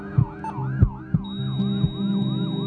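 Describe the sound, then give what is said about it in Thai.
Emergency ambulance siren: a loud wail that sweeps up and down in repeated cycles, with steady low thuds beneath it and a thin, constant high tone joining partway through. “โปรดให้ทางรถกู้ชีพฉุกเฉินทุกเส้นทางเพื่อช่วย1ชีวิต”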